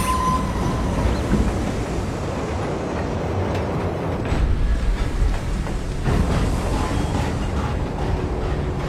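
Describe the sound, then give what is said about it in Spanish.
Amtrak passenger train at a station platform rumbles steadily with continuous clattering wheel noise, loud and unbroken throughout. “Pasajeros del tren de Pittsburgh a Omaha pueden abordar en la plataforma 7. Tren Amtrak 29.”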